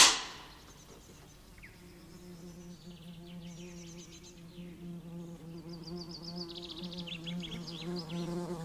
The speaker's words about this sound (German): Weg da! Es ist Wespenhochsaison.